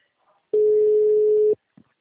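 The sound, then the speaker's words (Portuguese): A telephone busy-signal tone sounds as a single steady, mid-pitched beep lasting about a second, with brief faint sounds just before and after it. “O número chamado encontra-se fora da área de cobertura. O número está ocupado.”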